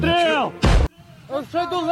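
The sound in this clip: One heavy boom of 40mm grenade launcher fire from Ukrainian special forces, a short, harsh burst set between stretches of men talking.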